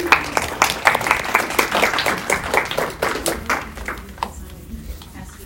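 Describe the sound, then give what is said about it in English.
An audience claps in welcome, producing dense, irregular hand claps that stay lively at first and then thin out and soften toward the end. “So give me a hand and welcome indeed.”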